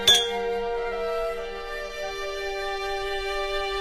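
Glasses clink together in a toast: one sharp, bright clink at the start, then a long, clear ringing tone that fades only slowly over several seconds.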